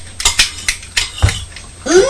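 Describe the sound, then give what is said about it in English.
Clattering knocks from the lid of a baby carriage being opened and shut over and over, several sharp hard clacks at an uneven pace, fairly loud and with no talk over them. “Opening and closing the lid on the carriage.”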